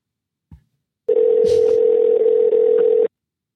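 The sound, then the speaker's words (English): A telephone ringback tone sounds on an outgoing call: one steady, even hum lasting about two seconds, preceded by a faint click. “I bet you anything goes right to voicemail because he's petrified because he's listening. Uh-huh. Yeah, it's going to his voicemail.”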